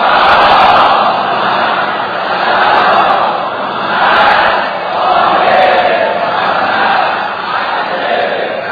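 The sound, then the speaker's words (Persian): A dense crowd of pilgrims at the Imam Reza shrine: a loud, continuous roar of many voices that swells and ebbs in slow waves. “الان اینجا جمعیت متراکمه، شما بزرگواران و ظاهرین حرم مطهر حضرت علی ابن موسی رضا صلوات الله و سلام علیه”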